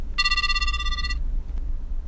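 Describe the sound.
A telephone rings once as a call is placed: a bright electronic ringtone of stacked steady tones sounds for about a second and then stops abruptly, leaving a low background hum.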